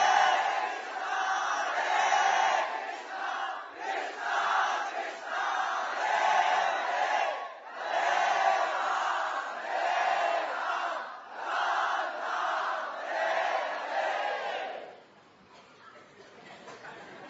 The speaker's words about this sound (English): If you can chant much louder, it will be even better.